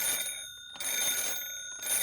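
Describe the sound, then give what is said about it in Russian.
An old telephone bell on a manual-exchange-era handset rings in short, bright metallic bursts separated by brief pauses. The ringing is loud, with a steady high hum continuing underneath. “У вызываемого адресата начинал раздаваться звонок в телефонном аппарате.”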